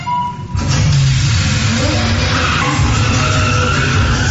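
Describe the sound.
Two racing cars roar in an AI-generated short drama about car racing, a loud continuous rush of engine noise with tire skidding that swells up after a brief quieter start and stays dense throughout.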